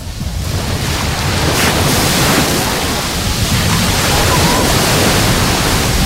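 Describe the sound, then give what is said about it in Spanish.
Sea waves break on a beach at Salobreña on a rough day with spray flying, making a loud, continuous roaring wash of surf with wind buffeting throughout and no pauses. “antes oriento el micrófono al mar con mucho cuidadito, porque hoy es verdad que el mar salpica. No me voy a acercar demasiado, tampoco hace falta porque el sonido es muy fuerte.”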